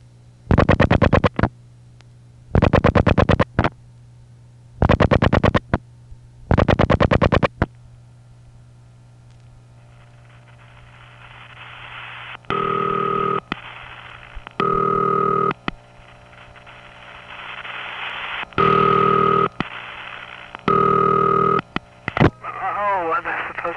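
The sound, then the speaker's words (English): A four-digit telephone number dialed on a phone line: four loud, even bursts separated by short gaps, then a hissing line carrying a run of repeated beeping tones over a low, steady hum. “And I'm now going to just dial 7879, my own last four digits.”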